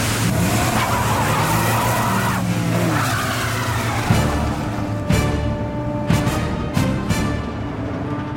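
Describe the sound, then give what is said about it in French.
Tires squeal and an engine roars as a car repeatedly slows and surges away during a chase on a paved road through dense fir forest toward a border post. Loud, continuous motor noise is broken by sharp skids, with several abrupt bursts in the later part. “À plusieurs reprises, il ralentit et ensuite repart en trombe.”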